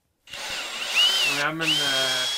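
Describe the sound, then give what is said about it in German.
Power drill whirring on the balcony of a building shell while Douglas fir terrace decking is fitted. After a brief silence the motor starts abruptly, holds a steady whine, cuts out briefly midway, then runs on. “Sägen, Schrauben auf dem Balkon eines Rohbaus in Markdorf im Bodenseekreis.”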